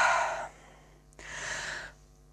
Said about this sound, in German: Schau sie in den Augen ganz intensiv, wenn sie reden, und atme so,